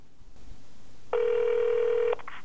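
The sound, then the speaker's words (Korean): A telephone line tone sounds as a call is dialed: one steady, even electronic tone lasting about a second after a stretch of faint background hiss, with no voices. “일단 실업급여가 있다는 걸 알려준 동료 탈북자에게 전화를 해서 물어보기로 합니다.”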